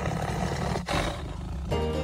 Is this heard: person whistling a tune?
no